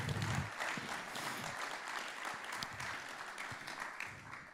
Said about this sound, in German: Ihr könnt gerne jubeln und klatschen.